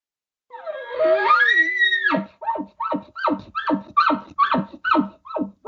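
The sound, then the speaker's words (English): A voice imitating a bull's call answering a cow call: a long wavering squeal that rises and then drops, followed by a rapid run of short, throaty grunting pulses. “He hears you cow call, and all of a sudden you hear the bull do this. He's trying to call you over, and you don't come. So maybe you hear him kind of give a little.”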